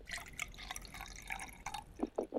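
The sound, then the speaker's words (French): Wine poured from a bottle until it runs empty, heard as a faint, hissy splashing trickle that ends in a few low gurgling glugs. “Ça coule, là? Oui, il n'y en a plus, ça y est, j'ai vidé la bouteille.”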